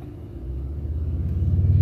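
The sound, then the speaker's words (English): A motorcycle riding past, heard as a low, rumbling engine drone with a steady harmonic tone that grows gradually louder over a couple of seconds. “old guy Stud riding on his motorcycle. At least he's wearing a helmet.”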